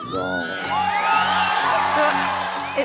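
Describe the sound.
An audience cheers and whoops at a live performance, a loud, sustained wash of crowd noise topped by high, rising whoops and yells.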